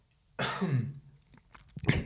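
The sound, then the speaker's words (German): A person with a cold coughs: one harsh, loud burst, then softer throat sounds, and another cough starting at the end. “Kurze Erkältung noch hier auskurieren, ein bisschen am Husten.”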